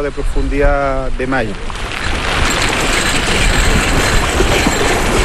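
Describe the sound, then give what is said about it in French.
Rotating metal tubes at the water surface spin and fling feed into salmon farm cages, making a continuous metallic rattling and clattering over a low rumble. A voice talks briefly at the start. “Alors ce son métallique qu'on entend, ce sont des tubes en surface de l'eau qui tournent sur eux-mêmes et qui lancent, qui distribuent l'alimentation aux saumons.”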